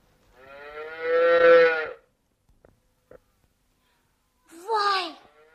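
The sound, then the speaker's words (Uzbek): A calf moos twice: first a long, drawn-out bellow lasting over a second, then, after a quiet pause with a few faint clicks, a shorter, higher-pitched call. “Voy qurg'ur buzoq! Enam ko'ylagini huzur qilib yamlayapti-ku.”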